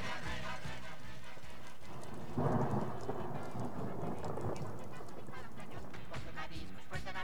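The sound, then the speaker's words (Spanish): Rain falls with a steady, dense hiss throughout, and a louder rumbling swell rises partway through before the downpour settles back to an even patter. “Y para que no falte nada más, hoy también, pues, está lloviendo.”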